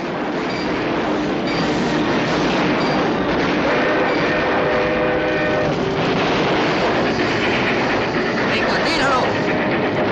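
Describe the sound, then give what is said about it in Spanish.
A train being set in motion by its engineers in a 1973 western film, heard as a loud, continuous rumble and clatter with sustained tonal lines layered over it. “Al disparo de Lane, los maquinistas ponen el tren en movimiento.”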